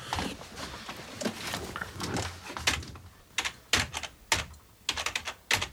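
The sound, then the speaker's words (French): Someone types on a computer keyboard with two fingers, producing many quiet, uneven keystrokes in an irregular hunt-and-peck rhythm with short pauses between bursts. “Je tape avec deux doigts, mais je fais moins de fautes que toi.”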